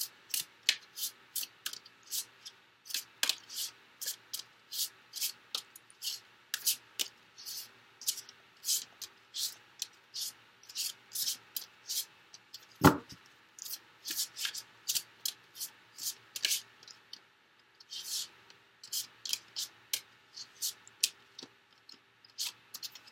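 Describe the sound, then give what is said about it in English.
Tarot cards are shuffled and drawn for a reading: many quick, crisp riffles and light flicks in an uneven rhythm, with one heavier thump near the middle and no talking. “So let me just go ahead and get the cards drawn, and we'll get started with your reading.”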